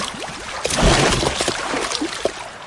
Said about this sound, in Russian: Добежав до берега моря, широко размахнувшись, избушка на курьих ножках бросает бочку далеко в воду.